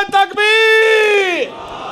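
A large crowd at a religious gathering shouts 'Allahu Akbar' in reply to the Nara-e-Takbeer call. A few short loud bursts lead into one long, loud, sustained unison cry whose pitch drops as it ends.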